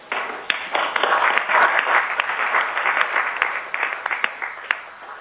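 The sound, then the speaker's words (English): Applause fills the room as a council resolution passes by acclamation, a steady wash of clapping dotted with sharper individual claps that holds for several seconds. “I think we should pass a resolution thanking him for his hard work on the council. And I think we should pass that in the usual way by acclamation.”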